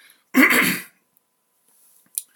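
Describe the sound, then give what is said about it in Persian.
A throat clearing from a person with an allergy, one short, harsh, rasping burst, followed later by a brief, faint noise. “ببخشید من امروز آلرژیم، سینه‌ای من خیلی اذیت کرده، اگر گاهی سرفه میکنم که صدامو صاف کنم”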